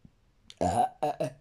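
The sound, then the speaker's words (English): Burping after a meal of lunch and tea: three low, throaty belches, one longer burst followed by two short ones in quick succession, fairly loud with no other sound between them. “Sorry, I'm so sorry. I'm burping a lot. I had lunch and I had tea.”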